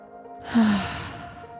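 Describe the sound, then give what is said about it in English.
A single deep breath is let out as a soft, airy exhalation that swells quickly and then slowly fades away, alone without any talk. “Let's take a breath.”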